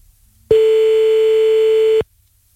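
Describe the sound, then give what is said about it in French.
One continuous telephone dial tone, heard while calling someone back, sounds at a steady, unchanging pitch for about a second and a half, starting and stopping abruptly against near silence. “Bah, c'est ça, attends, on va le rappeler du coup. 20h36, on rappelle.”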